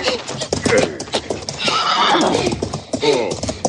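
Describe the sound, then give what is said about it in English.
A pony neighs in a loud, long, shaky whinny, with hoof clip-clop around it. “He not know the feel of a white man on his back. You all right, Billy? Does this pony run fast?”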